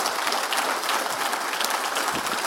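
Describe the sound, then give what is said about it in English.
An audience applauds in a dense, steady wash of clapping that stays even and fairly loud throughout, with no voices standing out. “Can we all give Cindy a big round of applause this morning?”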